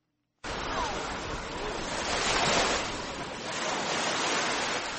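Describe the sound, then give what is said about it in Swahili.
Gentle Indian Ocean waves wash onto the shore beside Fort Jesus in Mombasa, a steady broad rush of surf that starts abruptly after a brief quiet moment and swells slightly midway. “Nimesimama kando kando ya bahari Hindi, mawimbi mepesi yakipiga hadi ufoni. Hatua chache ni jengo kuu la Fort Jesus.”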